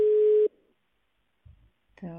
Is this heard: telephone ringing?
yes